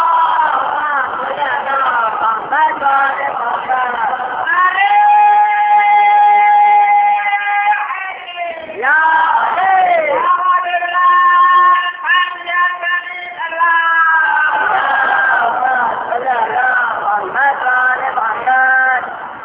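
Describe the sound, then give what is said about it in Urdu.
A crowd chanting a religious slogan in unison at a religious gathering: loud, sustained sung tones rise and fall in waves, separated by brief pauses. “یہ نعرہ لگا”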